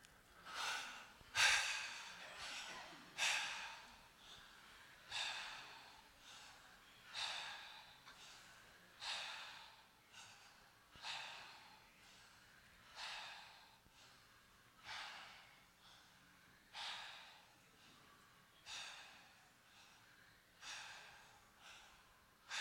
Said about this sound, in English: So breathe with the mouth. 20 breaths. You don't need to count four short ones, one long one. Just 20 breaths straight through with the mouth.